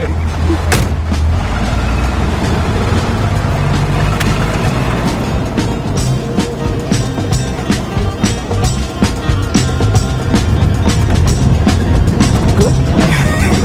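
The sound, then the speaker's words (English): A car driving off-road in the desert gives a loud, continuous low engine rumble, broken by many sharp thumps and rattles from the bumpy terrain. “So what's the secret? How do you do it? I've never tried to drive off-road in the desert before.”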